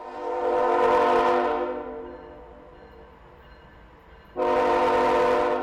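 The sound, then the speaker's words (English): A New Hampshire-bound freight train carrying coal passes through West Boylston near Worcester, sounding two long, loud, steady horn blasts with a quieter rumble between them. “That's the sound of a New Hampshire-bound freight train carrying coal last night through West Boylston near Worcester.”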